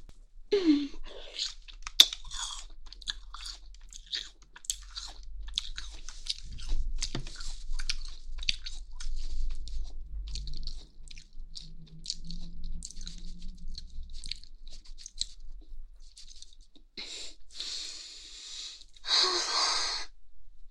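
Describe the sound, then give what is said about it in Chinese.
Biting and crunching something in the mouth, heard as many small crisp crackles and soft wet mouth sounds scattered through a quiet stretch, with a few louder breathy bursts near the end. “姐姐现在要放在嘴里一口咬碎，三二一。”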